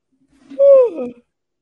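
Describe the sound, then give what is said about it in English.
A single human yawn, a drawn-out voiced sound that swells, slides slightly downward and trails off in about half a second, fairly loud with no other talk. “excuse me, that's the East Coast yawn starting to kick in”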